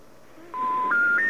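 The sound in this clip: Telephone keypad dialing tones: three short, clean electronic beeps in quick succession, each pitched a step higher than the one before, heard alone over a faint background hiss.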